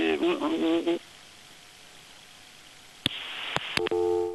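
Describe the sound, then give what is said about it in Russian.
A telephone busy tone follows a dropped call: a few sharp clicks, then a steady, repeating tone that runs to the end. A brief voice-like sound comes first, then a quiet gap. “сорвался звонок”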